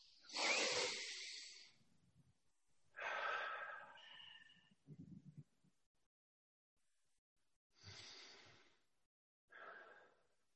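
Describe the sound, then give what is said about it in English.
Deep breaths drawn in and let out together, heard as a few hissing, airy rushes of breath separated by stretches of silence, some louder and some softer. “let's take a deep breath together. Ready?”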